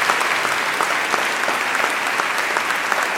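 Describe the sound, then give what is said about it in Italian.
Audience applause for a singer at a live concert, dense continuous clapping that stays loud and even throughout, with no voices standing out. “Un applauso anche per lei, per tutta la sua voce.”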